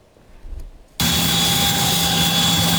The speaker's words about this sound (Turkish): 8 aylık hamile bir kadın ambulans uçakla Kuzey Kıbrıs Türk Cumhuriyeti'nden Türkiye'ye getirildi.